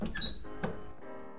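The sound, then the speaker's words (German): A window being opened on a stuffy, hot evening: a couple of short clicks and a faint squeak, then a steady, low, even background sound from outside follows. “Kann man vielleicht das Fenster da öffnen? Ja, vorausgesetzt, du willst die Nachbarn hören. Was meinst du damit? Mach das Fenster auf.”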